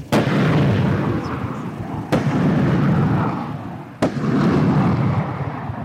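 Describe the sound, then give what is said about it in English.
Military rockets fire from a truck-mounted launcher beside a field: three sharp, loud blasts about two seconds apart, each followed by a continuous roaring rush of exhaust. “songbirds fly away as the rockets jet south in a plume of smoke.”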